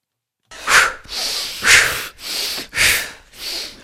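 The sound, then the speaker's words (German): Heavy, forceful breathing during a guided breathing exercise: a rapid series of loud, rushing breaths in an uneven rhythm of strong surges. No speech is heard. “Ganz kurz entspannen. Ein- und ausatmen, dann machen wir noch eine dritte Runde.”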